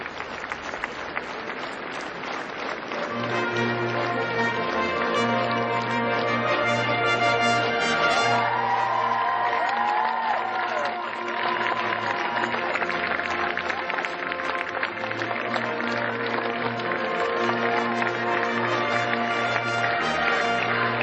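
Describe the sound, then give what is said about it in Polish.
Sustained applause from a gathering at a religious ceremony honouring a newly beatified person, dense and steady throughout, with a low, sustained tonal drone underneath. “Oklaski na cześć błogosławionego.”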